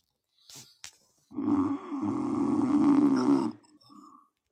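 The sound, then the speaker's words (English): A person snores loudly in one long, rough, rumbling breath lasting about two seconds, with a couple of short snorts before it and a fainter breath after. “Mate, there's not enough water that can condemn this fucking snoring. Anyone got any earplugs?”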